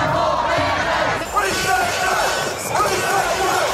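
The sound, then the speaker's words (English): Tens of thousands of anti-mandate protesters chant in the streets of Australian capital cities. The massed voices shout a rhythmic slogan loudly and without a break, with overlapping yells throughout. “So that's the sound of tens of thousands of anti-mandate protesters taking to the streets in capital cities right across the country over the weekend.”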